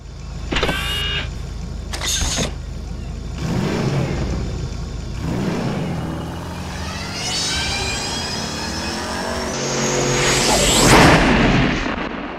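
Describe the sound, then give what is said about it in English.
A time-machine sound effect of whirring, swooping tones: rising electronic whines and whooshes layer over a steady hum, build to a loud peak near the end, then ease off. “let's jump in the time machine and we'll go back to the 90s”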